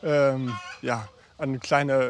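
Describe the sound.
Blumenhuhn hens clucking in a few drawn-out, harmonic calls separated by short pauses, moderately loud with no talk.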